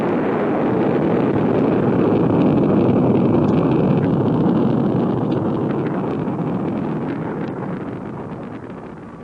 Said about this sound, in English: the Valaria Tracking Center, the sleek, white SET interceptor blasts off for Starlab.